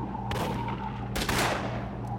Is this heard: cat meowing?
no